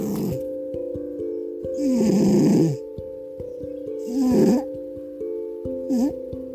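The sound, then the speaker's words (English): A cat snores in three breathy, rasping bursts, two longer ones and a short final one, over a steady low drone. “just me and my cat, and this is the sound of her snoring.”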